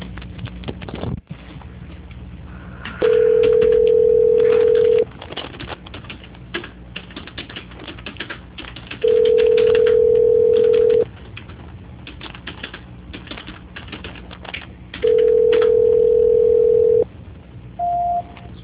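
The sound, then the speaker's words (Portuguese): Telephone line tones sound while a call is being transferred. Three long, steady mid-pitched beeps of about two seconds each are separated by pauses, then a brief higher beep follows, all over constant keyboard typing clatter. “Só um minutinho para transferir a sua ligação. Agora. Transferência.”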